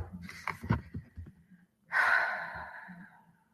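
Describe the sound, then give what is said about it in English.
A deep breath taken by a person: one long, breathy gasp that swells suddenly and fades away over about a second and a half, preceded by a few soft clicks and rustles. “Yeah, I just took a deep breath because this dude right here.”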